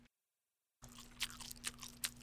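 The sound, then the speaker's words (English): Chewing while eating Chinese food: faint, moist crunching that begins after a moment of silence, with a few sharper bites standing out over a steady low hum. “All right, I'm eating Chinese food.”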